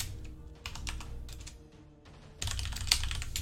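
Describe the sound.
Typing on a computer keyboard, quick clicking keystrokes in short bursts separated by brief pauses, building into a denser, steadier run of keys near the end.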